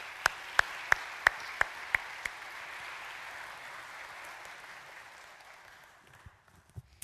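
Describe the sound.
An audience applauds as a guest is welcomed to the stage: a steady wash of clapping opens with several sharp, distinct claps. The applause fades out near the end, leaving a few scattered claps.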